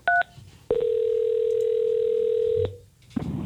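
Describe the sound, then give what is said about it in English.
A telephone call being placed to a radio listener: a couple of short beeps, then a steady single tone held for about two seconds, followed by low rustling noise. “Let's call that person. Give them the good news.”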